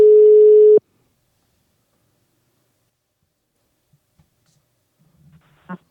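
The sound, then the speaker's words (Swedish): A telephone ringback tone sounds while a call is placed to a nurse: one steady, mid-pitched beep lasting under a second. Near-silence follows, with a few faint clicks and a short, slightly louder sound at the very end. “nu ska jag ringa upp Chi.”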